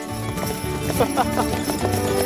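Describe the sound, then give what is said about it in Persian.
Hooves of a horse-drawn carriage clip-clop steadily on a carriage ride through the Arizona desert, a continuous rhythmic clopping that runs at a moderate level for the whole moment. “وقتی شما رو با خودش با کالسکه به صحراهای آریزونا میبره، یه جور ارتباط احساسی و در این حال شاد با این سرزمین برقرار میکنید. بزن بریم.”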